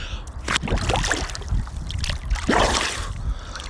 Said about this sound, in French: Je vais mettre la tête sous l'eau.